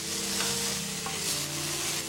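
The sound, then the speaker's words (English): Wild mushrooms sautéing in a skillet give a steady, hissing sizzle that runs unbroken throughout, with a soft stirring texture beneath and no voices. “Inside, Phoebe sautés the wild mushrooms in a skillet.”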